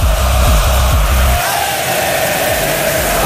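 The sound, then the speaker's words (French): A crowd cheers at the Fun Radio Live, a large free concert. Loud, continuous shouting and whooping from many voices merge into a sustained roar. “le Fun Radio Live, si vous ne connaissez pas, pour vous faire juste une idée, c'est cette ambiance. C'est ce public.”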